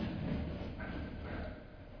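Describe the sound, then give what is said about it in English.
A train passes with a continuous, broad rumbling roar that holds steady throughout, with a faint thin squeal briefly rising above it near the middle. “We'll wait for the train to go by.”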